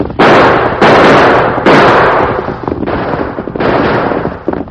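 Staged gunshots ring out during a holdup in a radio western drama: five loud, sharp blasts, each trailing into a long noisy decay, spaced irregularly across the scene with no talk over them.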